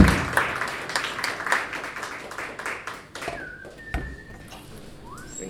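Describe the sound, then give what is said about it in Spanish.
Applause from a small audience for a pianist at a live music event, loose clapping that thins out partway through, with a few sharp whistles near the end. “Un aplauso para él.”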